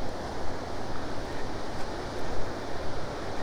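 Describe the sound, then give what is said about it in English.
Waves break on a beach at high tide near a lifeguard hut and dunes, making a steady, loud roar of surf mixed with gusty wind noise. “The tide's further in than I thought. So I can't even get down to the beach at the lifeguard hut.”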